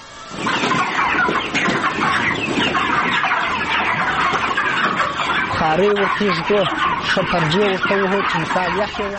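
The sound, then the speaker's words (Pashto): Chickens clucking at a poultry farm in Kandahar: many birds calling at once in a dense, continuous chatter, with louder, sharper squawks rising out of the flock in the later part. “په کندهار کې مو د چرګانو یوه فارم ته ورولو.”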